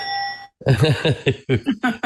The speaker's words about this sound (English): That's the winning bell.